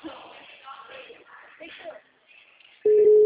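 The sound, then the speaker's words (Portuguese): A telephone ringback tone while calling someone: a steady, low-pitched electronic tone that cuts in abruptly near the end, after a stretch of speech, and stays loud and even. “Ligando para ela.”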